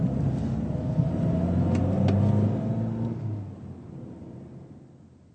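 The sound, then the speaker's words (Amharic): A taxi stopping on a street: a low engine rumble swells briefly, then gradually weakens and fades as the car slows. “አንድ ሰው በመንገድ ላይ ታክሲ ታክሲ ያስቆምና የት ሊሄድ እንደሚፈልግ ማለትም ወደ ሆቴል”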